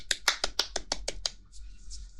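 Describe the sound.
Eight crisp hand claps in an even, fairly quick rhythm, given on a school principal's call for applause before a hygiene lesson. A faint, thin tone lingers after the last clap.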